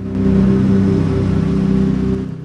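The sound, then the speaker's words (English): Two massive container trucks roll past with a loud, low engine rumble that quickly builds, holds steady and eases slightly toward the end. “Two massive container trucks roll by in the near distance.”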